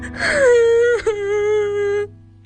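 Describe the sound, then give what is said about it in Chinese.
A person crying, with a drawn-out moaning wail that slides downward and then holds a long, steady tearful note, broken briefly by a catching sob before trailing off. “你别哭了，别哭啊”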